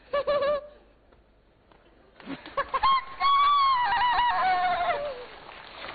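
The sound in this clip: A person imitates a hen with their voice, giving a few short clucks, then a longer, warbling cackle that rises and wavers in pitch.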